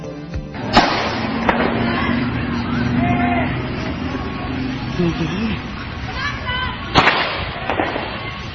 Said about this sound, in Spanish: En este momento están disparando adentro de Ciudad Universitaria.